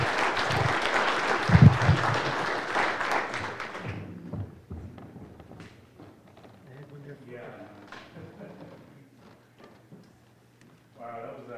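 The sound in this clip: A church audience applauds to welcome a pastor, with dense, loud clapping for about four seconds that then drops away as speech takes over over a low hum.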